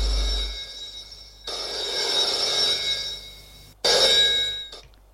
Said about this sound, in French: le grand-père reçoit un appel téléphonique dans son bureau.